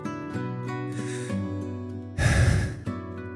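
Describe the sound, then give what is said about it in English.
A deep breath, one breathy rush of air lasting about half a second, rising above steady sustained musical tones. “But I take a deep breath.”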